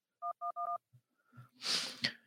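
Phone keypad tones sound as a key is pressed to accept a call: three short, steady electronic beeps in quick succession, followed by a rough, noisy rush.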